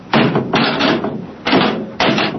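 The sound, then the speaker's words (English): A hatch slammed shut: a few loud, heavy bangs, each followed by a short rumbling tail, spaced unevenly through the moment, with no talking. “Well, you'll slam the hatch and off we go.”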